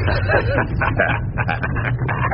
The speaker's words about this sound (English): was that a rat? Oh, just my little doggy, my dear. You feel my little doggy.